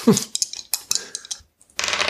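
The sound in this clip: Dice rolled for a willpower check during a tabletop role-playing game, heard as a quick run of many hard clicks and clatters on a surface, with a short pause before a denser burst of noise at the end.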